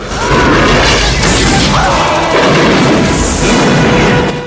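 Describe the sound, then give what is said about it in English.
A grenade launcher fires and destroys a Russian jeep on a battlefield: a loud, dense blast and crashing roar that stays heavy and continuous for about four seconds. “Hamid helps fire a grenade launcher that destroys a Russian jeep.”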